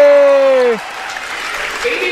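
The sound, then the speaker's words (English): Crowd applause and cheering as a school's home team, the Men in Black, is introduced. A sustained voiced yell with a slightly falling pitch opens it, then a dense wash of clapping and crowd noise carries on. “And now, ladies and gentlemen, put your hands together for your home team, the Men in Black. Now the people get excited. Yeah, here we go. Here comes the noise.”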